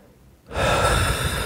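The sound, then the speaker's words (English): A person breathes in: after a brief near-silence, a loud, airy rush of breath begins and continues to the end, with no speech. “Just a couple of breaths for a bit.”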